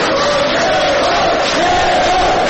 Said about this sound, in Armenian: Գևորգ Սաֆարյանին աջակիցները ծափահարություններով ու վանկարկումներով դիմավորեցին